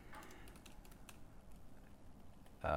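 Faint, irregular clicks of typing on a computer keyboard, entered while installing jQuery during a coding demonstration, tap along in quick bursts at low volume.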